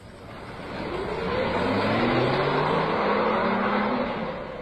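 A car engine runs steadily as the car is driven, a broad rumbling hum with clear tonal harmonics that swells louder through the middle and eases slightly toward the end, with no voices.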